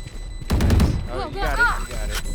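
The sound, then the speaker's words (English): Gunfire in a video game shooter: a rapid burst of several shots, then a voice speaking, then another sharp shot near the end. “Start shooting.”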